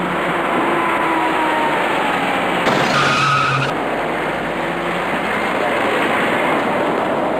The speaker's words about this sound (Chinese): 原本行驶在直行车道里的深色小客想要挤进最外侧的左转弯车道，可是因为措施不及，他的左后侧与一辆白色小客的右前部发生了剐撞事故。